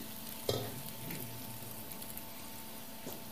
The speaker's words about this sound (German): Vielleicht ist mein Öl zu wenig. Niedrig, genau. Ich tue so ein bisschen Öl rein.